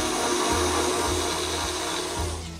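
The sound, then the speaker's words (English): An electric mixer runs on low speed while mixing dough as eggs are added, giving a continuous even whir with a low underlying hum. “now with the mixer running on low, I'll add my eggs one at a time, making sure that each one is incorporated.”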